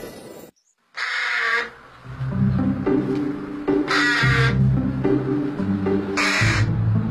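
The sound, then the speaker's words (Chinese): A carrion crow caws three times, each call harsh, raspy and loud, spaced a couple of seconds apart over a continuous low, tonal background. “我叫小嘴乌鸦，体长45到53厘米左右，体色为黑色，带有紫色光泽”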